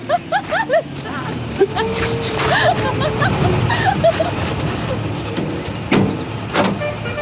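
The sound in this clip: A truck pulls up to pick up hitchhikers, its engine rumbling beneath a steady wash of road traffic noise. People talk briefly at the start, and a few short knocks and clatters break through near the end.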